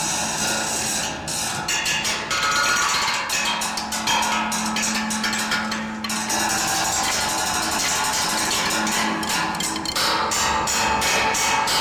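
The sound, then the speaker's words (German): A metal seat in Berlin is struck with a drumstick: many rapid, sharp taps ring out with a bright metallic clang, forming an irregular, fairly loud rhythm with brief pauses. “Klangbeispiel 28, Metallsitz.”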